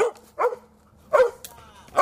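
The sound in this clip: Dogs bark in the woods where a veteran lives with her two dogs. A few loud, sharp barks come alone with short pauses between them.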